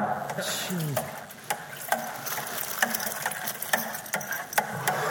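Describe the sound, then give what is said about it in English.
Spoon-stirring of a lumpy yeast mixture in a bowl: many steady, repeated scraping clicks in an even rhythm throughout, with a voice briefly audible near the start. “Okay, we'll do it now. I better get a bit of stirring.”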